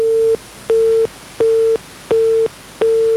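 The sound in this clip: Busy tone on a telephone line after a call drops: five identical loud, mid-pitched beeps, evenly spaced with short silent gaps, steady and alone with nothing else behind them.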